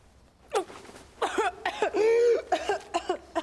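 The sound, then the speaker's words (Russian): A woman coughing up blood lets out a series of harsh, strained, voiced coughs and choking sounds, clustered irregularly, with one longer drawn-out retch in the middle. “кашляет кровью”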